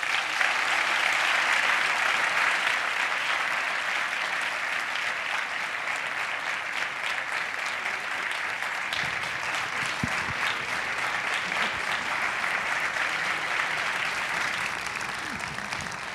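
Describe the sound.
Audience applause welcoming two guests to the stage for a public conversation: thick, sustained clapping that holds at an even, fairly loud level throughout, with faint voices appearing in the second half.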